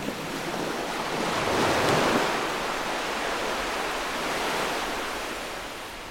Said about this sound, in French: sur la plage de la Roche Percée, 8 décembre 2017.